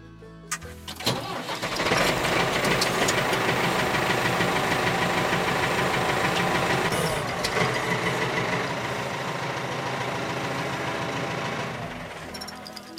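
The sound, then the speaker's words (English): A farm tractor engine turns over and catches, then runs with a loud, steady, rumbling clatter that eases slightly toward the end. “Yes, it's a tractor.”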